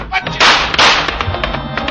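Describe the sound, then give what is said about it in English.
Two loud, sharp gunshot cracks in a radio drama shootout, fired in close succession from handguns, each a brief burst of bright noise over a low background. “He stopped the first two slugs from Cairo's gun and the first two out of Johnny's, all in the chest.”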